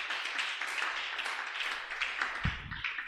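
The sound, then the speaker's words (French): An audience applauds and cheers for Jesus during a worship service. Dense, steady clapping and voices stay fairly quiet throughout, with one brief low thump near the end. “Merci d'acclamer pour moi. Acclame maintenant pour Jésus.”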